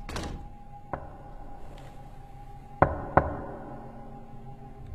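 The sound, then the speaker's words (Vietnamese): Knocking on a door: one soft knock, then after a gap two sharper knocks close together, all fairly faint over a steady low hum. “tự nhiên có tiếng gõ cửa.”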